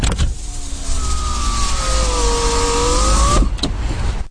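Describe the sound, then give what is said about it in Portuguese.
A car's electric window motor whines steadily for about three seconds as the glass is opened, then stops with a short clunk. “Eu penso que seja ou abrir ou fechar um vidro elétrico de um carro. Tens de escolher uma, Amílcar. Abrir ou fechar? Porque são barulhos diferentes. Abrir. Abrir o vidro do carro.”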